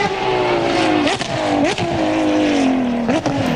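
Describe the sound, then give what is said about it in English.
A Ferrari V12 engine with a manual gearbox revs hard and continuously, its loud droning note jumping abruptly at three gear changes. “V12, and you can hear as the gears change. Ferrari is bucking a trend by offering drivers a manual gearbox version of one of their cars for the first time in a decade.”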